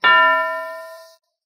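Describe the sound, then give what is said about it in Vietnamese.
A small bell is struck once and rings out with a bright metallic clang, its clear tones holding and then fading steadily for just over a second before cutting off. “Một tiếng chuông lại vang lên, một vòng bạch sắc khí lãng tùy theo tiếng chuông mà dũng mãnh tuôn ra”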